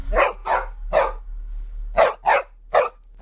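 A dog barks as it leaves a house in a horror film scene: a burst of three sharp, loud barks, a pause of about a second, then several more barks at an even pace.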